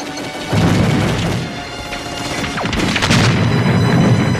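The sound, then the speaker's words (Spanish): Gunfire in the battle of Stalingrad, with shots fired blindly through smoke: a dense, booming rumble with a few sharp cracks cutting through it. “Disparamos al azar. De oído.”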